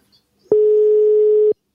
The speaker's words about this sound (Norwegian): Skal vi ringe ett nummer til, da?